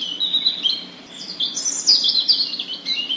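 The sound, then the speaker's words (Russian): European robin singing its short, simple song, a whistle turning into a ringing trill. Bright, high chirping phrases run continuously and fairly faintly, with no other sound. “запела Зарянка свою песенку, короткую и простую. Малиновый свист переходил в звенящую трель”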